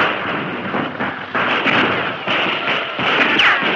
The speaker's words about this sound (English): the light from the burning oil made them targets for the rapid rifle fire from the fort.